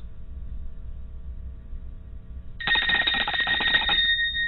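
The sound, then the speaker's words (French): A telephone rings while a call is being placed: after a low steady hum, a bright, warbling bell-like ring begins and continues for about a second and a half, loud and clear with no talk. “Je compose le 1 pour appeler mon cousin.”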